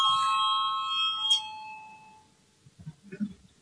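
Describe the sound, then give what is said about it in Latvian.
A bell rung during a parliament session gives a bright ringing chime that sustains, then decays over a couple of seconds, followed by faint low rustling. “Lūdzu zvanu.”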